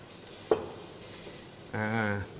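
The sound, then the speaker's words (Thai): Squid and shrimp tossed with garlic in a hot pan: steady sizzling throughout, broken by one sharp knock of a utensil and a brief tonal scrape near the end. “ใส่หมึกกับกุ้งลงไปคลุกเคล้ากับกระเทียมนะครับ”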